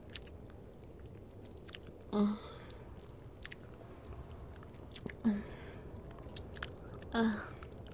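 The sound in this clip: Biting and chewing: quiet wet mouth clicks with three louder bursts carrying a low hum of voice, over a steady hissing background with faint crackles.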